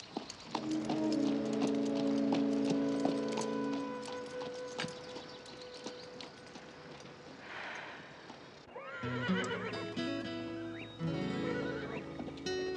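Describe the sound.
Horse hooves clip-clop as a rider rides away, joined by loud whinnies and neighs, with the hoofbeats steady and fairly faint.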